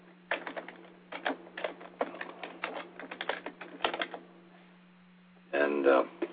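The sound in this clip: Typing on a computer keyboard: uneven runs of quick clicking keystrokes separated by pauses, with a short louder burst near the end, all over a steady low electrical hum.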